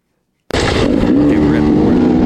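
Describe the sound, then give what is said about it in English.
A Beta X-Trainer dirt bike engine bursts to life after a moment of silence during a carburettor float level test, then runs at a loud, steady, buzzing idle. “Wow, the volume's pretty high on that, but this is normal. This is Cooper testing the float level on the Beta X trainer.”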